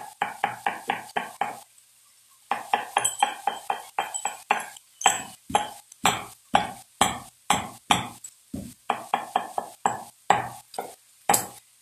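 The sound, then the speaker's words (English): A mixture being stirred in a bowl, with many quick, ringing clinks of a utensil in a steady, brisk rhythm and a brief pause early on. The strokes are fairly loud, with no voices. “Now we mix it. Now we mix it.”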